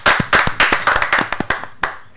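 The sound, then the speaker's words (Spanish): Applause from people clapping: a quick burst of many sharp, irregular claps that fade and thin out toward the end. “Vamos, un aplauso a las mujeres, loco.”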